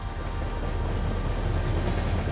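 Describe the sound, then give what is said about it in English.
A train rumbles steadily, a continuous low, broad roar that holds at an even loudness throughout, with no voices. “Well, that's my train.”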